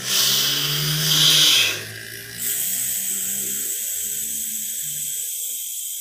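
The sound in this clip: Calm, steady breathing in a demonstration: a loud hissing breath is followed by a quieter, even, sustained breath with no talking.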